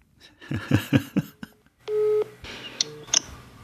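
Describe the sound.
Telephone line tones as a call is placed to someone in a former East German state: a run of tone bursts, then a steady sustained tone and a few short beeps.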